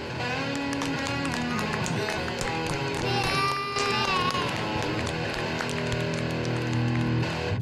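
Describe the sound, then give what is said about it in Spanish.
Recorded applause and cheering mixed with a rock chord, used as a prepared sound effect: a dense, loud, sustained wash of clapping and crowd noise with ringing harmonic tones throughout, lasting several seconds with no talk. “He preparado yo unos aplausos para Dani Fox, y lo he hecho con su hijo. Muy bien. Y esto suena así.”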